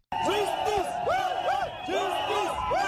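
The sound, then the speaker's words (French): Protesters in N'Djamena shout and chant on a Thursday morning shortly before the trial of four detained civil society leaders. Loud, repeated rising-and-falling cries come from a crowd in a steady rhythm. “C'est le cri des manifestants ce jeudi matin aux environs de 8 heures,”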